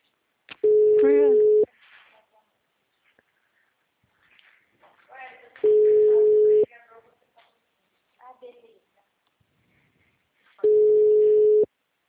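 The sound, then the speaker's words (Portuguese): A telephone busy signal: three long, steady tones at a single pitch, each lasting about a second and evenly spaced several seconds apart, with a recorded voice speaking in the gaps between them. “número está ocupado.”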